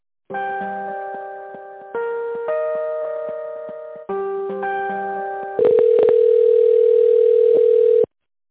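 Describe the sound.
Telephone line tones play while a call is being transferred: several short blocks of layered, organ-like tone chords step from one to the next, then give way to a single long, steady tone that stops abruptly.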